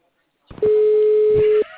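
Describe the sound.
A single steady ringback tone sounds on a telephone call while the caller waits for an answer. The tone is mid-pitched, clear and lasts about a second, with faint muffled noise around it.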